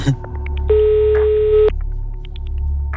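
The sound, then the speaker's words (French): A single steady telephone ring-back tone sounds as a call is placed live to a listener's home. The tone lasts about one second and is clear and fairly loud over a low, constant background hum. “On appelle chez vous en direct. C'est toujours un bruit bizarre ce téléphone.”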